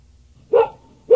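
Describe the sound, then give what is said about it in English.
A dog gives two short, sharp barks, each a loud, clear bow-wow separated by a brief pause against near silence. “And what's this? It's a dog.”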